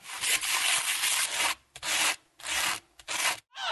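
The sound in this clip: Sandpaper rubbing back and forth as a sound effect, a long gritty hiss followed by several shorter scraping strokes with brief gaps between them, loud and alone.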